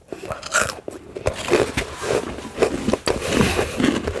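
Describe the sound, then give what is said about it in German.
Crisp crunching bites into freeze-dried chocolate ice cream, many brittle cracks and chewing crunches following one another in an uneven rhythm. “Und jetzt probieren wir also gefriergetrocknetes Schokoeis.”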